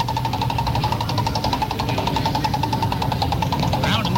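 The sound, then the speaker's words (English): A prize wheel given a hard spin: a fast, continuous rattle of ratchet clicks at a steady rapid rate, with a low hum underneath. “Let me give the prize wheel a massive spin.”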